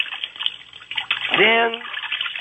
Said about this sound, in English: I'm just splashing the water back and forth.